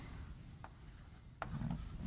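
Scratchy rubbing strokes of drawing a block diagram on a board, soft and faint, with a couple of sharper scraping strokes and no talk.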